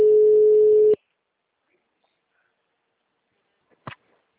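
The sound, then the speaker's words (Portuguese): A phone ringback tone plays on a recorded outgoing call before it is answered: one steady tone of about a second, then silence, and a faint short click near the end. “Fiz uma ligação gravada, gente.”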